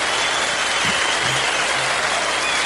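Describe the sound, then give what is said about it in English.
Audience applause greets the start of a comedy show: a dense, steady wash of clapping that stays loud and even throughout, with no voices standing out. “Now, put your hands together for the Shiznit.”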